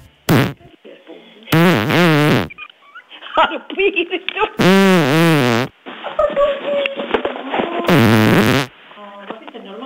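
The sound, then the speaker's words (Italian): Fart-like queefs, air escaping from a woman's vagina as she lies down after sex from behind: three loud, buzzy blurts with a wavering pitch, separated by stretches of talk. “Dopo che è stata a pecorina, quando si sdraia, le esce questo suono dal figo.”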